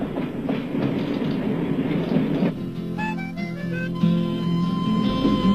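An international passenger train runs on rails near Basel, with a steady low rumble and rhythmic wheel clatter throughout. A few clear tonal notes join in over the second half.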